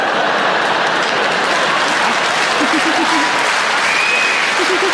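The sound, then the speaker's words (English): Loud, dense audience clapping that continues unbroken for five seconds, with a voice briefly audible over the applause. “Oh, now, don't start clapping.”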